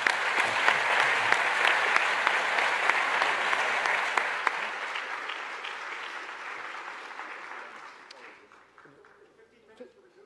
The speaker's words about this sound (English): let's give our panel a hand.